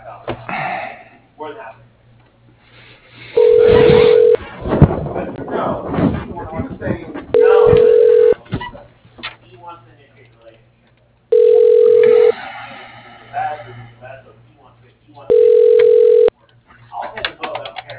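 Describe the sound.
Telephone ring-back tones play while a call is transferred to an extension. There are four steady, level-pitched rings, each about a second long and spaced roughly four seconds apart, with talk and other sounds between them.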